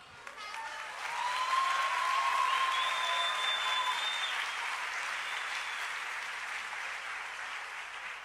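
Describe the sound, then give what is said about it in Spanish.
Loud, sustained applause from a church youth audience, breaking out about a second in and continuing as a thick, even wash of clapping with a few thin tonal sounds over it, easing only slightly toward the end. “cuando lean ese nombre tienen que gritar y aplaudir porque merece toda la gloria.”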